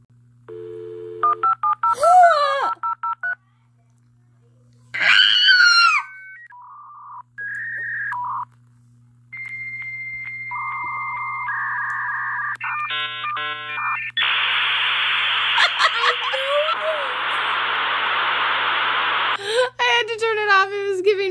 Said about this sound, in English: Because dial-up internet is what it was.